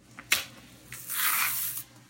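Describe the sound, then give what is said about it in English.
Thick-skinned underripe bananas are peeled by hand: a sharp short tear, then a longer rough ripping stretch. “The skin on the bananas, the peel is very thick. Yeah, it feels different than the ripe banana peels.”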